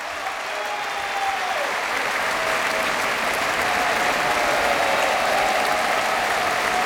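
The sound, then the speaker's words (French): Enthusiastic concert applause from the audience at the Philharmonie de Paris after a choral and orchestral performance, a long, thick roar of clapping that builds slightly and stays loud and sustained throughout. “Vous l'entendez, le public de la Philharmonie est enthousiaste, le chef aussi”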